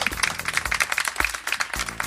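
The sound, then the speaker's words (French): Audience applause for a show's presenters, brisk continuous clapping over low, irregular thumps. “On prend juste le temps de vous applaudir vous aussi pour ces superbes émissions que vous avez portées.”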